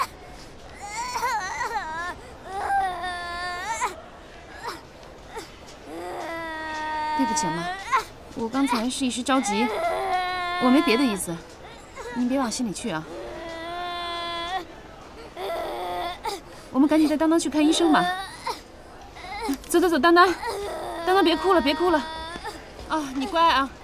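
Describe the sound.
A young child cries after getting a fish bone stuck in the throat, in loud, repeated wailing bursts with rising and falling pitch, broken by sobbing gasps and short pauses.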